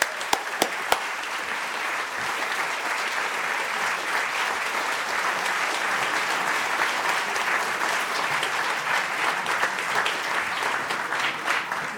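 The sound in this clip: Sustained audience applause welcoming a speaker at the Free Library in Philadelphia, opening with a few sharp individual claps before settling into a steady, even roar of many hands that lasts the whole stretch.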